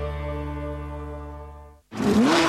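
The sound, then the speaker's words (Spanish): Rally car engine roar at a World Rally Championship event in Chile: a sustained low, buzzy drone that slowly fades, a brief silence, then a loud rough burst with a wavering whine. “La emoción del motor ruge en Chile.”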